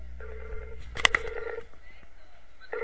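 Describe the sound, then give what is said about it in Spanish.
A Skype call ringtone plays softly as short tonal ringing phrases. A sharp click breaks in partway through, and the tone comes back at the end. “Compadre, te estamos llamando.”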